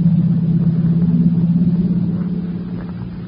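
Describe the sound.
A car engine's low, steady rumble as the driver steps on the gas and drives off, a continuous drone heard alone that eases off slightly toward the end.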